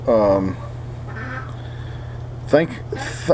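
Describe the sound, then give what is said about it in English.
A duck quacking in loud, nasal, harmonic bursts: one strong quack at the start, then a quieter stretch, then a few more quacks close together near the end. “here comes the duck, so it's gonna get loud, guys”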